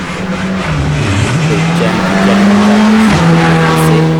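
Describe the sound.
A rally car at a Ligurian rally passes at speed with a loud, steady engine note that climbs slightly and then drops sharply near the end, while Italian commentators talk over it.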